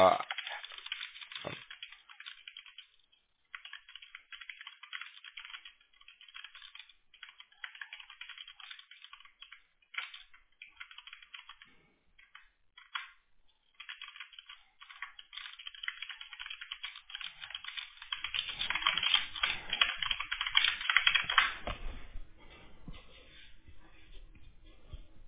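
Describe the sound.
Typing on a computer keyboard while messaging: a long run of quick, light key clicks in irregular bursts with brief pauses, growing denser and louder toward the end.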